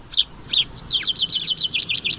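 A chaffinch sings a rapid run of high, bright, repeated chirping notes that flow together into a quick, lively phrase over faint background hiss.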